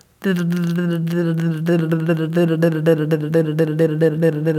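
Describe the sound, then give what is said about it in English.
A voice imitates infant 'delelling' babble, with the tongue raised toward the teeth and alveolar ridge. It repeats many quick, D-like syllables on a steady voiced pitch in a fast, even rhythm. “We also have what I like to call delelling, which is the tongue elevated toward the teeth and alveolar ridge to produce something like this.”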